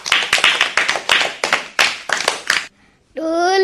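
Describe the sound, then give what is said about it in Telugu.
Children clapping for a girl who has just sung a song: a run of many sharp, rhythmic hand claps that stop abruptly, then after a short pause a voice begins singing. “బాగా పాడింది కదా, చప్పట్లు కొడదామా.”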